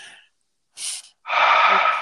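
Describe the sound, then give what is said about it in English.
A deep breath out during a guided breathing exercise: a brief breathy puff, then a longer, loud, steady exhale that carries to the end, with no talk. “Whatever came out, whatever you feel is still coming through, go ahead and breathe it out as we do our next breath.”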